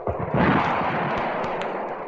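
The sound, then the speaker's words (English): Spaceship rocket propulsion jets firing as a radio drama sound effect, a dense, steady rushing roar with a few low thumps near the start. “Stand by. Firing primary jets. Firing propulsion jets.”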